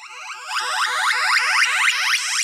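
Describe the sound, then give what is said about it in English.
The hyperspace effect from the 1982 Williams arcade video game Stargate is a loud, buzzy electronic whoosh with a dense, pulsing texture. It sweeps upward for about two and a half seconds and then cuts off abruptly. “So it's the hyperspace sound from Williams' Stargate from 1982.”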